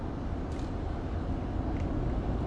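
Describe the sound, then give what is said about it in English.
Low, steady road rumble from inside a car driving home, a constant dense noise with no talk over it. “the phone that I'm podcasting into as I'm driving home”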